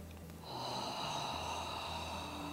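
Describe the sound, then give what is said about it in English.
A single long breath is drawn through a narrowed throat, giving a soft, raspy hiss. It begins after a quiet moment and holds steady and faint to the end. “pay attention to the shape of the back of your throat as you do this. And listen to the sound that's created with your breath here.”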